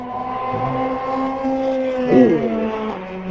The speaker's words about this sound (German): Mini Cooper Cup war noch. Oh ja, die hören sich, die fahren schneller, ne, die jetzt gerade.